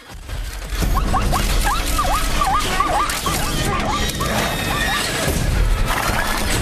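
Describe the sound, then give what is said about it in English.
A racehorse squeals while being jostled and held in the starting gate before a race, a shrill, wavering cry over a steady rumble of background noise. “Channing struggles to hold the squeaking Stripes. The other horses are champing at the bit.”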